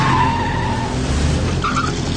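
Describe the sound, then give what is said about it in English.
Tires skid and an engine roars as a Jeep speeds away, followed by a blue car: a loud, continuous screech over a low engine rumble, with a fresh high squeal rising briefly near the end. “They speed away, followed by the others in a blue car.”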